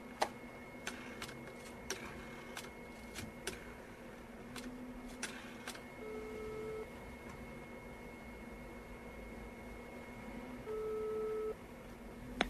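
A faint telephone ringback tone sounds while a call is placed to a professor. Two steady beeps, each under a second long, are separated by a long gap and sit over a low hum and scattered clicks.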